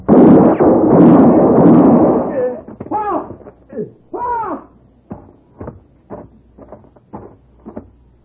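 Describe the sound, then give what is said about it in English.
A gunshot in a Western radio drama: a loud, broad blast that rings on for about two seconds, followed by voices talking in short, clipped lines. “I had to shoot him.”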